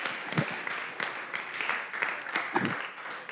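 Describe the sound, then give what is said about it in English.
An audience claps together in a quiet, steady patter of many hands, with a few louder bursts rising out of the spread of applause. “So can we give them just a clap and some honor for putting this together?”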